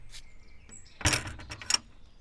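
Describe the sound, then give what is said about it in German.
A garden gate swings open, a brief burst of rattling and creaking mid-clip after a quiet start, fading back to stillness. “Posaune Paul nickt ganz verlegen und schon öffnet sich die Gartentür.”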